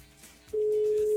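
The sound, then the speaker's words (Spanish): Telephone tone as a live call is dialed and connects: a steady, unbroken mid-pitched tone starts about halfway through and holds at one pitch and level to the end, after a quiet stretch of faint background. “Marcando en vivo, a ver. Listo, ya entró la llamada.”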